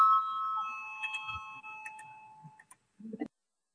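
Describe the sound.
A voting bell in a Latvian parliament chamber rings a single clear metallic tone that slowly fades over about three seconds, followed by a few faint knocks and a brief low rumble.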